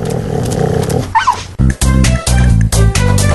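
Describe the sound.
A dog gives a brief high whimper, then a few loud, gruff barks and growls in quick bursts, with no talk.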